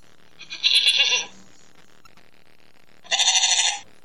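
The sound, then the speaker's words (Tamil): A sheep bleats twice: two loud, nasal, wavering cries, each lasting under a second, separated by about two seconds of near silence, with no talk. “என்னில் பல வகை உண்டு, அதில் ஒரு இனம் தான் செம்மறி ஆடு. அதுதான் எனது பெயர்.”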